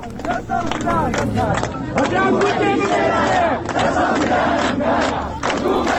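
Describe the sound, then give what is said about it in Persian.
A large crowd chants protest slogans in unison at a memorial ceremony. Loud, rhythmic shouted phrases repeat throughout with brief dips between them. “مردم شعار دادن”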